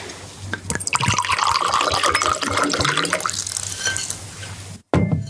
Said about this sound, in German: Ich glaube, ich schenke uns allen nochmal nach.